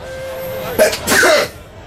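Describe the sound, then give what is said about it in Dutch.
A sneeze: a sudden breathy burst followed quickly by a longer, noisier one, loud against a quiet background with a faint steady tone. “En ik moet even niezen.”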